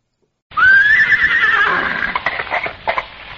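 A horse neighs beside a pony and trap: one loud, high whinny that starts abruptly, holds a strained, quavering tone, then breaks into shaky, pulsing fragments as it fades.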